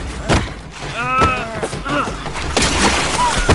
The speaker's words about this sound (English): Quick, here's some loose rocks. Support your own weight on the rim and smash through. He broke through.